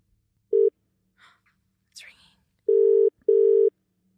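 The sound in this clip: Telephone ringback tone on an outgoing call to Perth: three clear tone bursts, a short first one followed by two longer ones close together, with faint murmurs in the gaps.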